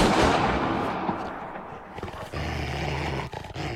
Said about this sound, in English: The dogs attack and a shot rings out.